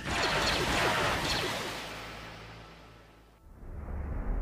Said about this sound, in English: Before she could meet him halfway, the first blaster shots fired.